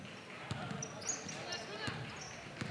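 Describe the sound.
Basketball dribbled slowly up the court during a women's game: a few soft, widely spaced thumps over a steady background murmur.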